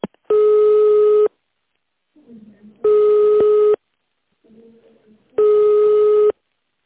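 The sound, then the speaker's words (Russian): A telephone line tone plays while a call is being transferred: three long, steady beeps of about a second each at even intervals, with faint muffled noises in the gaps between them. “Алло, здравствуйте, компания Trade Service. Сейчас я вас переключу.”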